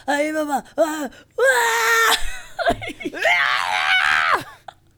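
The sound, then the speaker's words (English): A man's voice imitates an R2-D2-style scream with a Nibbler twist, letting out several high, wavering, strained squeals in loud bursts separated by brief breaks. “He's doing the R2-D2 scream with a Nibbler twist.”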